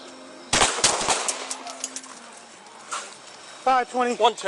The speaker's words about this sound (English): Three shots were fired